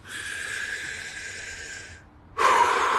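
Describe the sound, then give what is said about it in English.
Deep breaths taken during a guided group breathing exercise: one long airy rush lasts about two seconds, then a short pause, then the next strong breath begins. “Can you guys go ahead and take 3 deep breaths with me?”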